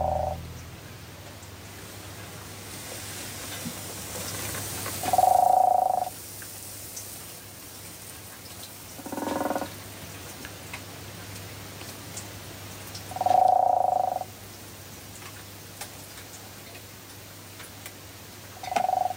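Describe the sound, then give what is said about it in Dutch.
Brown frogs croaking in a back garden in Amsterdam: a few short, purring croaks spaced several seconds apart, fairly faint over a steady low hum. “Lodewijk Odé hoort bruine kikkers in zijn achtertuin in Amsterdam”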